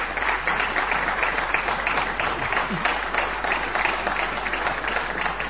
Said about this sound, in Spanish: Bueno, después lo podremos aplaudir.